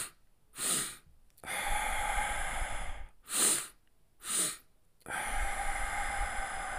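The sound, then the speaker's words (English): A breathing exercise of quick double inhales through the nose and longer exhales through the mouth: short, sharp sniffs alternate with drawn-out, airy breaths, loud and close, with no talk. “The first is a double inhale through the nose and a longer exhale through the mouth.”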